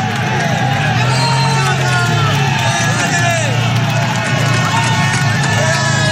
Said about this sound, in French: ça te file le frisson d'entendre ça, la foule qui encourage les coureurs